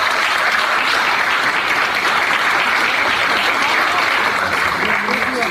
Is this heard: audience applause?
yes